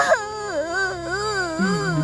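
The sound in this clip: A hungry child cries in one continuous wail whose pitch wavers up and down, fairly loud and alone.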